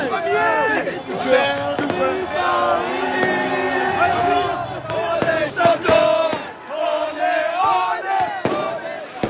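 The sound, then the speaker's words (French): Paris football supporters cheering and chanting after a tense match, a loud, continuous roar of many voices with sharp bangs cutting through the noise again and again. “Voilà, des supporters qui exultent et on les comprend car le match a été irrespirable”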